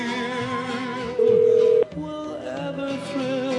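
A telephone being dialed gives a single steady keypad tone that sounds clearly for about half a second over a continuous, busy background of sustained tones.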